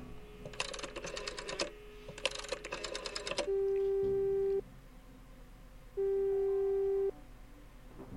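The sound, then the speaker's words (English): A telephone ringback tone sounds twice as long, steady, even purrs separated by a pause. Two bursts of rapid clicking come before it, and the whole passage is faint. “A phone. Should I call Carl? Yes.”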